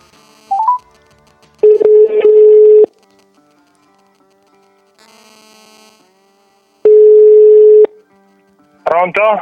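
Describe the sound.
Dialing tones for a telephone call: a short beep, then a few long steady tones separated by quiet gaps, ending with a brief burst of voice as the line is answered.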